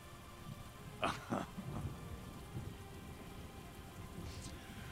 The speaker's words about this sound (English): The rain just... it falls around you guys.